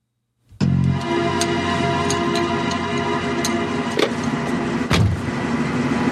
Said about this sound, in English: She parks near the large mansion we've seen before.